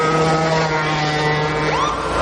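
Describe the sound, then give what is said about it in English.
A lawnmower engine, ridden fast through a residential area, drones steadily, a constant loud hum with layered harmonics and no voices. “Sir, are you aware you were going 40 miles an hour? This is a residential area. Sure, but I'm on my lawnmower.”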